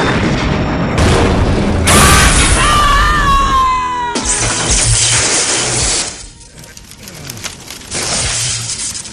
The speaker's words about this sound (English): Torpedo inbound. Reinforce port shields. We have no port shields, sir. All hands, brace for impact.